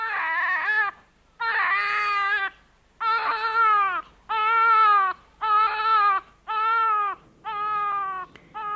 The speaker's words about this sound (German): mein Kleines, weine nicht. Weine nicht. Das bricht mir das Herz.